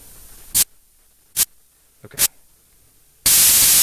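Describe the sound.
Synthesizer instrument playing white noise: three short, loud hissing bursts separated by silence, then a sustained, bright static hiss that holds steady to the end.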